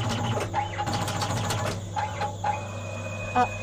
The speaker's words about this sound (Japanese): 亜鉛板が上に上がりました。機械から出ました。ぐるっと反対側にくるりと回ってまた機械の中に入っていきます。